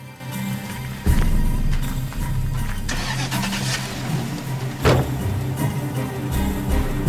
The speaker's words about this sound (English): He shuts the back of the Range Rover and gets in.